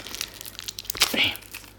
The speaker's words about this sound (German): Ist noch ein bisschen Folie eingepackt.